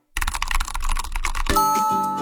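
Rapid clicking of keys on a computer keyboard as a message is typed into a chat, a dense run of taps that gives way after a moment to sustained bright ringing tones.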